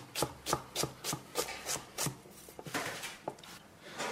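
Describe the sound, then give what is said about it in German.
A knife chops half a dozen peeled, porcelain-white asparagus spears into centimetre pieces on a cutting board: many crisp, faint thuds in a steady, even rhythm that quickens slightly toward the end. “Ein halbes Dutzend porzellanweiße, fein säuberlich geschälte Spargelstangen. Dann schneidet man es einfach klein in so Zentimeter große Stücke.”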